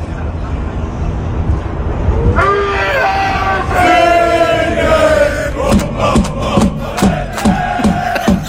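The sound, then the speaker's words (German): Mainz football fans in Germany shirts celebrate on a Toronto intersection after Germany's 2–1 win over Ivory Coast. Crowd noise swells into loud group singing, then gives way to several rhythmic beats under the voices. “da saß einfach ein Riesenhaufen Mainzer Fans in Deutschland-Trikots auf einer Kreuzung und die haben natürlich allen Grund zum Feiern gehabt, weil unsere Nationalelf die Elfenbeinküste dann doch noch nach Zittern mit 2-1 besiegt hat.”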